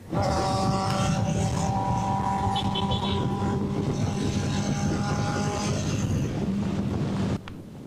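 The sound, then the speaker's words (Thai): A big motorcycle speeds away from police with a steady, loud engine drone mixed with wind rush, dropping off abruptly near the end. “คุณผู้ชมขับเร็วมากนะครับบิ๊กไบค์คันนี้ขับเร็วมาก”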